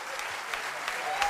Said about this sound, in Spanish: Fortísimo aplauso, señor.